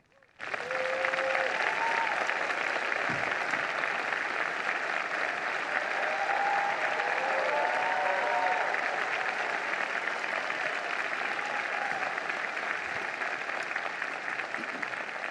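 A debate audience applauds to welcome the Democratic and Republican presidential nominees. Dense, continuous clapping lasts the whole stretch at an even, full level.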